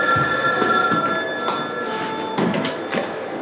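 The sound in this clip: A telephone rings with a continuous, loud bell tone, a steady metallic trill of layered high overtones holding throughout without pause.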